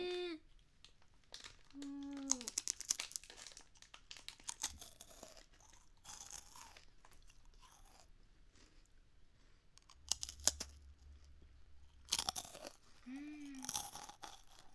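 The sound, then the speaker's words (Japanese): Crunchy coconut leaf pie pastry being eaten, with many irregular, crisp crunches and flaky tearing sounds that are fairly faint, plus a few short vocal sounds between bites. “これココナッツのリーフパイなの。”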